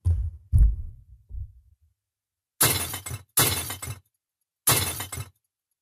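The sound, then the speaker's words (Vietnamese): Objects crash and shatter during a household quarrel: a few dull, low thuds first, then three loud, noisy crashing bursts separated by short silences. “Tiếng loảng xoảng đổ vỡ tựa như bè cho tiếng khóc của mẹ cô.”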